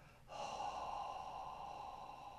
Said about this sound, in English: Exhale.